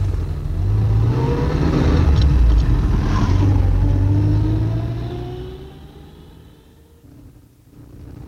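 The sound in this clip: A car engine revs and pulls away, a loud, steady rumble that rises in pitch as it accelerates, then fades out toward the end.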